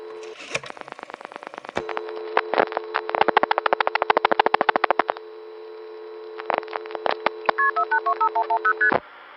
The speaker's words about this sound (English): Here is the way a long-distance call starts to go through from one of the NX1s in Greenville, North Carolina.